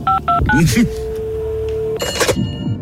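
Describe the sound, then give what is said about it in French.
Touch-tone keypad beeps as a phone number is dialled for a call: three short dual-pitched tones, then a long steady tone, with voices talking over parts of it. “Je prends un joker. On appelle Anne Hidalgo.”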